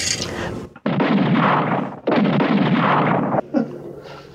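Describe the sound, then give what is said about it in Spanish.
An automatic rifle fires blindly in a dramatized scene: a few long, dense rattling bursts of gunfire, separated by brief gaps, loud and harsh throughout. “Hugo Branco acciona su rifle automático tirando a ciegas”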